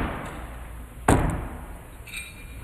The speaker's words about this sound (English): You can hear the clang as those two knives come together, both in the bullseye.